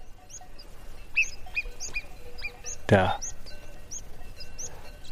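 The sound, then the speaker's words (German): Two marmots calling in the mountains: many short, high-pitched whistling chirps in an even, repeating series, with a brief spoken word partway through. “Wir laufen jetzt gerade wieder zurück runter zur Hütte und links von mir sind 2 Murmeltiere. Vielleicht hört ihr sie.”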